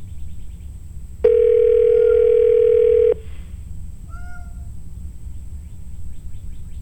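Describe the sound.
A telephone line gives a single steady electronic tone for about two seconds, followed by a few faint brief chirps over a low background hum.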